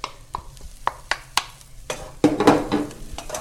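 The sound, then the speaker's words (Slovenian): Chopped leek hits a pan already holding butter-sautéed onion and oat flakes, bursting into a bright, hissing sizzle after several sharp knocks and taps of utensils against cookware. “In sedaj bom pa dodal še por, ki ga bom tudi še upražil.”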